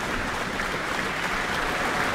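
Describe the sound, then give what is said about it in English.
Steady, dense applause from a concert audience for an orchestra and its wind section after a performance of Schumann's Symphony No. 4 in D minor, a continuous even wash of clapping at constant loudness with no voices. “Another round of applause for the wind section. And the entire orchestra stands up once more after their wonderful performance of Schumann's Symphony No. 4 in D minor”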